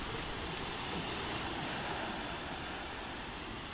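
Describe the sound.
Sea waves wash on the shore in the evening, with little wind: a steady, even rushing hiss with no distinct breaks or talk, fairly quiet throughout.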